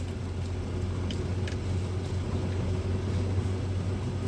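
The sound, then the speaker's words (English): A car engine drones steadily as the car drives slowly down a rough track with small sinkholes, a low, even rumble with only a few faint clicks and knocks above it. “I could sort of drive down here with my mind in neutral, but I'm thinking I better sort of stay focused because there's little sort of sinkholes and subductions.”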